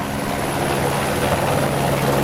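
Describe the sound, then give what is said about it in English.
A helicopter flies, used as an air taxi service in Sao Paulo. It makes a loud, steady engine and rotor drone with a low rumbling throb that continues unbroken throughout, with no voices. “Unless, of course, you pick Sao Paulo's newest cab service, called Voom. Click to make a booking, and then head to the nearest helipad.”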